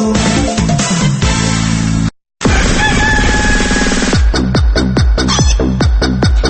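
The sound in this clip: A dawn rooster crows loudly over a dense, layered backdrop. After a brief silence, a run of sharp, evenly spaced hits follows.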